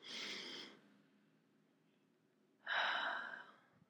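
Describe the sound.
Deep breaths drawn through the mouth and nose: two airy, breathy rushes separated by a quiet pause, the second louder and fuller than the first, with no talk.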